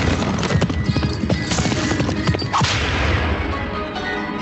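Galloping horse hooves in an old-style Western scene, a dense, rapid clip-clop of many loud, overlapping hoofbeats that keeps a steady driving rhythm from start to finish.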